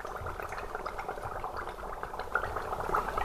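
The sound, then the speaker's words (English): Faint, dense bubbling of Sarsfield Stout as yeast ferments it in a small-batch brewery fermenter. A steady, continuous fizz of tiny gurgles and pops runs throughout. “So you're looking at one of our small batch fermenters. This is our Sarsfield Stout actually fermenting currently, and that bubbling noise you hear in the background is the yeast eating the sugars that are in suspension in the wort or the beer”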